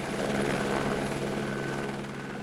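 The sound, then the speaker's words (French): A helicopter flies with a steady, fairly faint rotor drone and engine hum that holds an even throbbing texture throughout; it is the aircraft used to airlift a runaway zebra suspended in a harness. “notre cher Ed a dû être raccompagné chez lui en hélicoptère”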